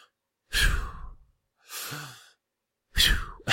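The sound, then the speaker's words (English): A voice imitates anxious heavy breathing: three loud, breathy gasps and exhales separated by short pauses, with another breath starting at the end. “she was literally breathing like this almost the entire movie.”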